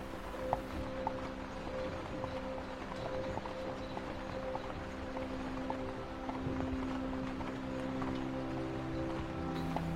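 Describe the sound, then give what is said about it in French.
Hooves of a horse pulling a carriage on a winter ride clip-clop at a slow, regular pace, soft and steady beneath a sustained, humming tonal drone. “La calèche avance à un rythme lent et régulier.”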